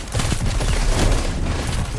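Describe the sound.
Gunfire in the Destiny 2 video game, including a sniper rifle: a dense, loud, continuous crackling barrage with booming low rumble and no clear pauses between shots.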